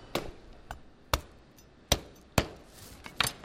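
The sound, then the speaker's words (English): A potato baked in vegetable compost is cracked open, giving a few sharp, dry cracks spaced irregularly over a faint background. “It's a potato that's baked in compost. This is vegetable compost. I'll crack it open.”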